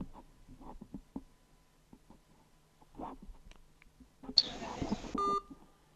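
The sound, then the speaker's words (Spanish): A short, clear electronic beep marks a phone call ending during a remote interview, following a brief burst of hiss and faint scattered noises. “dice llamada finalizada. La voy a volver a llamar.”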